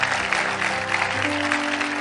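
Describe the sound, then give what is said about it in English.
A church audience clapping together, a dense, even wash of hand claps held throughout, with sustained low musical tones underneath. “can we clap for God for his goodness?”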